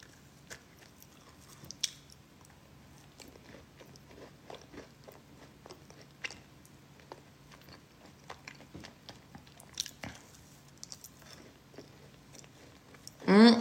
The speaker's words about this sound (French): Je fais un ASMR de cookie